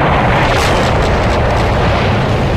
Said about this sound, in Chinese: 高射炮火和巡航导弹炸弹的巨大爆炸让城市的夜空如同白昼。